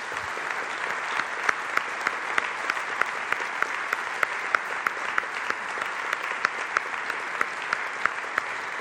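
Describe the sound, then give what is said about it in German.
Strong audience applause welcoming Sam Childers in Lörrach, a steady roar of many hands lasting several seconds, with sharper individual claps popping out of the wash throughout. “Es ist mir eine Ehre, Sam Childers hier zu begrüßen in Lörrach, und ich würde sagen, wir heißen ihn herzlich willkommen mit einem kräftigen Applaus.”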